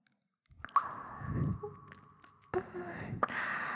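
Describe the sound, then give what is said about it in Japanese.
Gentle biting and chewing mouth sounds come in a few soft, moist bursts, with small squishy clicks between quieter pauses. “少し甘く噛むぐらいにしてあげるよ。”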